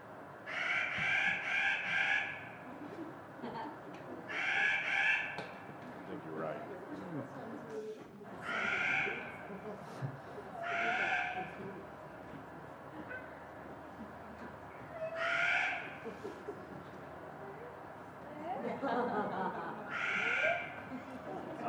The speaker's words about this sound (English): I think this is a Steller's Jay. Somebody correct me if I'm wrong. They're a really nasal sounding call.